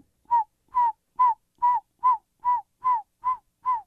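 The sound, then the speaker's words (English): A person whistles an imitation of a saw-whet owl's metallic call: nine short, even, mid-pitched notes, each dipping slightly in pitch, repeated at a steady rhythm with clean silence between them. “And when you hear saw-whit, they're named for their sound. Yeah, exactly. It's a very metallic note that kind of goes.”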